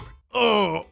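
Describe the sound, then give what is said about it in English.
A voice imitates a stomach groaning after eating chain-shop pizza: one low, drawn-out, rumbling groan that swells and then fades, after a brief pause at the start. “Here's the sound of my stomach after eating at a chain pizza shop.”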